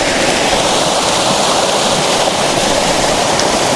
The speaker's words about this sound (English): I'm literally just taking a picture of this waterfall, which is a really pretty waterfall.